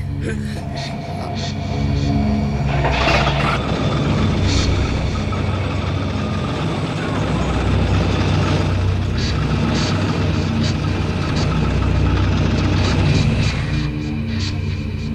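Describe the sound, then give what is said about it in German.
A car engine that stalls and is restarted, heard as a steady low rumbling run that begins after a brief quieter stretch and holds evenly before easing slightly at the end. “Den Motor abgewürgt”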